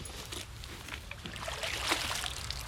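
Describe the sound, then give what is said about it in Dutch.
Dip net dragged along a stony stream bed, giving a continuous watery swishing and trickling, fairly loud and steady, with slight surges as the net moves through the water. “U heeft een schepnet mee. Een schepnet, een paar zeven. Gaan eens even kijken. Gaat ook over de bodem.”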